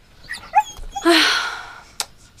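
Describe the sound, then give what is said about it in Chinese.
A small dog gives a few short, high-pitched yips and barks, then a longer whining yelp. The barks are fairly faint, with a brief click near the end. “她说她要一条小狗，跟她家那小狗去作伴儿。”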